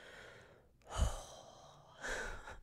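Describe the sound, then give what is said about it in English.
A swimmer takes a deep breath after a hard first swim: two soft, airy breath sounds, one near the middle and one toward the end, separated by near silence and with no speech. “I'm taking a deep breath because that first swim was crazy.”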